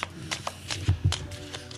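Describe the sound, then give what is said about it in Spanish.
A deck of cards is shuffled for a fortune-telling reading, giving a series of short, crisp papery riffles and soft taps at an uneven rhythm. “Espérate que vamos a barajear. Barajea otra vez, Paco. Vamos a barajear.”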